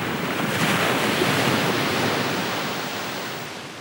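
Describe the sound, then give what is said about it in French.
Surf of a rising tide washing over a pebble beach, a steady, loud rush of water that swells early and then slowly eases over a few seconds, with no voices. “La marée montait et s'avançait sur les galets, avec un bruit de chaîne et de sanglots.”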